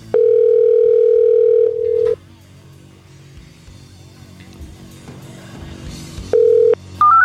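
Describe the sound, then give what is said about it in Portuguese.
A steady, loud telephone dial tone holds for nearly two seconds, then cuts out into a quieter stretch of faint hum and noise. The tone returns briefly before a few short keypad beeps of a call being dialed. “não vai ligar? Liga pro HM. Vou ligar.”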